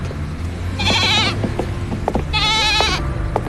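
A lamb that ran off from home bleats twice in a lane, two loud, wavering, mid-pitched cries separated by a short gap, over a steady background rumble.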